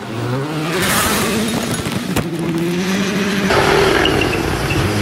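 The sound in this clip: A racing car's engine held flat out in sixth gear through a corner: a loud, continuous high-revving drone with a nearly steady tone, heard alone without talk.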